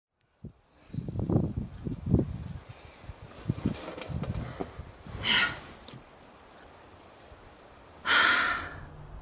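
Hard breathing of a rock climber working up a very tall, difficult boulder without a rope: a run of short, ragged gasps and snorts, then two louder, longer breathy exhalations, with no talk.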